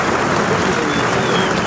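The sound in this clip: A bullfight crowd gives a loud ovation after a matador's series of passes. The dense, unbroken roar of clapping holds steady for the whole short clip.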